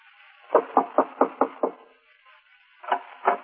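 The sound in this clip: Knocking on the door of a poor cabin with cloth over its windows: six quick, evenly spaced raps, a short pause, then two more knocks, crisp and fairly loud with nothing else around them.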